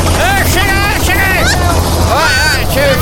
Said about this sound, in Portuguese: É um helicóptero presidencial, é. Onde será que o Trump tá indo, mano? Rapaz. Voltou, aí, ó. Vai pousar aqui na rádio, ó.